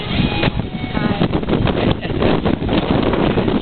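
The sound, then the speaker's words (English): Wind buffeting a microphone at Silver Lake as a storm approaches in July, a loud, constant, muffled roar that gusts unevenly throughout. “The wind's picking up.”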